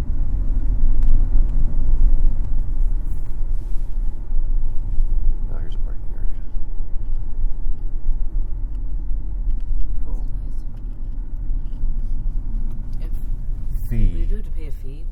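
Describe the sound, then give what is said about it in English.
A van drives along a campground road with a steady low rumble of engine and tires throughout, and a brief voice near the end. “Well, these are campsites. Let's drive to the end and see.”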